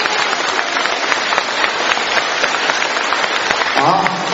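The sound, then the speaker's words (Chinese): Dense, steady applause from a seated audience at a talk, a continuous crackling wash of many hands at even loudness, with a brief voice entering near the end. “我觉得我们坐在当中的人鼓鼓掌，要谢谢他们”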